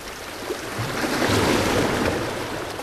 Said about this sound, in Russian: это шумит море.